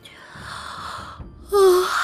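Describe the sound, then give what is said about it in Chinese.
A voice performs a yawn: a long, soft, breathy intake, then a louder voiced, moaning exhale that holds and slowly trails off. “白鹤怀睁开眼睛，打了个哈欠。”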